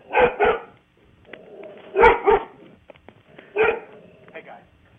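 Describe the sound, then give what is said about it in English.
A dog barks in three short bursts, mostly sharp pairs of loud barks, separated by quieter stretches. “Don't worry about the dog barking.”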